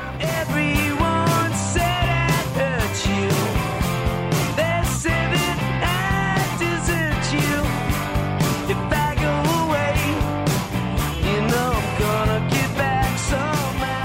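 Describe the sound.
A rock band plays a cover of a 1960s folk-rock song, with steady drums, guitars and a sung melody at an even, full level throughout.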